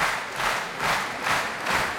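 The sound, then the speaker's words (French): Audience applause for an Argentine pianist at the La Roque d'Anthéron piano festival, a dense, steady patter of many hands that swells and eases in regular pulses, with no voices. “Et vous entendez le public de la Roque d'Anthéron conquis par le pianiste argentin”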